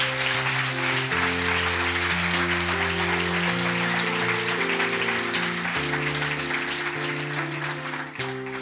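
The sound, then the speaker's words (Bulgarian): A church audience applauding: dense, steady clapping runs without a break over sustained chords of music. “Аз бих ръкопляскал, ако бях на ваше място.”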